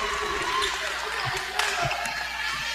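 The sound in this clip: A basketball is dribbled during a women's basketball game, giving a few low thuds against steady crowd noise.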